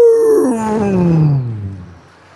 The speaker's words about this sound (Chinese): 突然传来惊人的咆哮声音